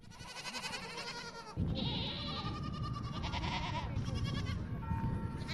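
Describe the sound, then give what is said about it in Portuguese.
Dwarf goats bleat while grazing on scrubland at Fiéns in Trás-os-Montes, giving several nasal, wavering calls of varied length one after another, with a steady low rustling bed beneath from about the midpoint on. “Este é o som dos balidos das cabras anãs que pastoreiam nos terrenos de Fiéns.”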